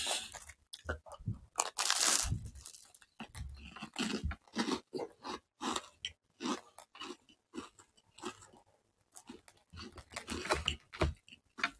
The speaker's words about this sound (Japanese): 食べては喋って、食べては喋ってみたいな。